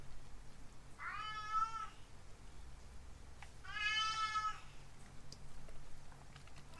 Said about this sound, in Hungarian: Közben a cica nyávogása, ne tévesszem meg senkit.